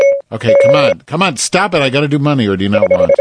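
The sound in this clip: Phone notification tones from incoming text messages: a short electronic beep, then a longer steady beeping tone that sounds under voices as people talk over it.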